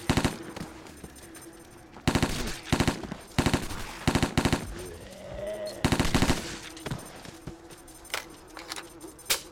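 An MP5 submachine gun fires in a video game, rattling off several short rapid-fire bursts separated by brief pauses.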